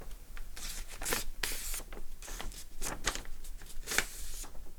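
A sheet of paper rustles and crinkles as it is folded into a paper airplane. Many quick, crisp bursts of handling noise follow one another with no voices.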